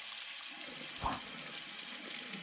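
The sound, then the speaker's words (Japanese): Hot spring water runs from a tap in a steady, soft hiss that stays even throughout. “当然蛇口から出てくるお湯も温泉水です。”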